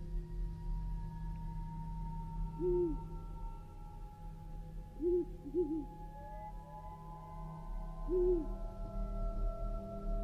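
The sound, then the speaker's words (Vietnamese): An owl hoots in the distance in a gloomy forest: a few soft, short, low hoots at irregular intervals, faint over a steady background hum. “Thì thoảng lại có tiếng chim cú đâu đó từ xa, rúc vọng lại như là đang gọi bầy.”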